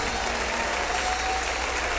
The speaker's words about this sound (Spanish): aplaude fuerte a Jesús, el amor de nuestras vidas.